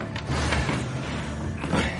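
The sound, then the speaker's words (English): Doors are jerked open with a brief, rough creaking and scraping noise of moderate loudness, with no voices. “jerk open the doors there. Let's heave this mess out of here.”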